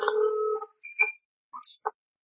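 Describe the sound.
A telephone rings with an electronic tone, a sustained buzzing note followed by a few short, scattered beeps at differing pitches, fairly faint with quiet gaps between.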